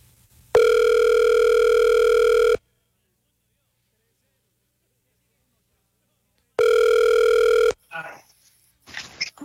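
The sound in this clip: Ringback tone of an outgoing phone call placed to a quiz-show contestant's friend: two long, steady buzzing tones separated by a few seconds of silence, then a voice answers the line.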